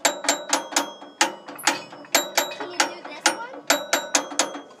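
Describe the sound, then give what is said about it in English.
Gears turning with a sharp ratcheting clatter: many crisp clicks fall in uneven bursts. It is moderately loud and mechanical, with no voices. “Those are gears. Yeah. Can you get the noise in here? Oh, yeah. Ooh, I like that. The grinding of the gears.”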